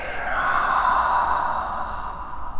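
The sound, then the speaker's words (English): A long, airy breath during a yoga session swells and then slowly fades. The steady, smooth breathing is heard alone, with no talk. “Inhale, lengthen your spine. Exhale, release down. Breath in and out.”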